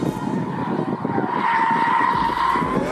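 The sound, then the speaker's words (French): Tires skid and squeal as a heavy Japanese V6 car drifts with its electronic driver aids switched off. The squeal is loud and sustained over a steady engine roar for the whole clip. “Mais quand les assistances électroniques sont débranchées, la lourde japonaise devient jolie ballerine, tout en drift. Par-dessus le vrombissement du V6,”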